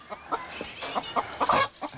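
Chickens with their chicks in a wire-mesh enclosure, giving many short clucks in an uneven, busy rhythm over a quiet background.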